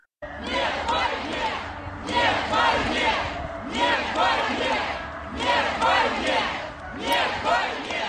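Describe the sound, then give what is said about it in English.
Crowd of anti-war protesters chanting 'no to war' in a St. Petersburg street, loud and steady: five repeated rhythmic chant phrases of many voices in unison, each separated by a short lull. “And that is the sound of Russians taking to the street for the second straight night to voice opposition to the war in Ukraine. That one, a demonstration in St. Petersburg tonight, chanting no to war.”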